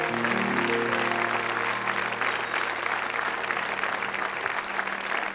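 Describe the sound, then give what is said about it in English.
An audience applauds to welcome the senior pastor at a community church service, dense, even clapping sustained at a steady level from start to end. “I want you to put your hands together and welcome the senior pastor of South Point Community Church, Pastor Russ Austin.”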